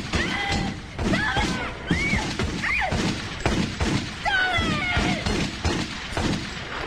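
Gunshots fired through wallboards come as a rapid series of sharp bangs mixed with splintering impacts and thuds. They are loud and irregular throughout.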